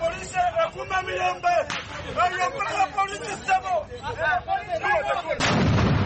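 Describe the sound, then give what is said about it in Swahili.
Gunshots are fired into the air at a street protest where police used tear gas and rubber bullets on a crowd. Two sharp reports cut through loud crowd hubbub and voices. “Licha ya risasi kufyatuliwa hewani”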